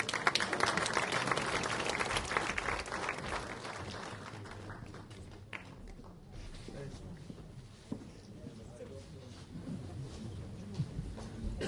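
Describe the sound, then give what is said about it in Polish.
An audience applauds at an award ceremony for services to tourism, with loud, dense clapping at first that gradually thins and softens while scattered claps continue. “Wielkie brawa, drodzy Państwo!”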